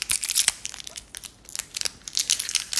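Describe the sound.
Crinkling of a plastic bag of salted mandarin candy, many quick crackling bursts and crunches in an uneven rhythm, loud and close with no talk.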